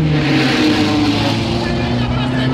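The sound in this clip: A race car engine roars steadily as it speeds along a racetrack to overtake another car. The drone is loud and continuous with a strong, even pitch throughout.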